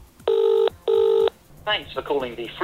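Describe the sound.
A phone call to a hotline number placed from a mobile rings with two identical long, bright tone bursts, then a voice begins speaking as the call is answered.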